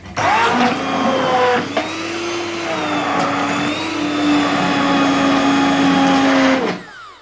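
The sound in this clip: A kitchen blender purées soup with a loud, steady motor whine that runs for about six and a half seconds, dipping briefly near the start before cutting off.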